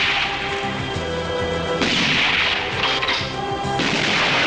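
Gunfire shoots an oar off a boat: a few loud, sharp cracking bursts sound over a dense, continuous background.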